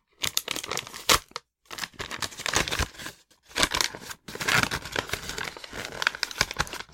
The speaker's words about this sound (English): Just rip it open. You don't have to be delicate. So it's a Yoshi amiibo.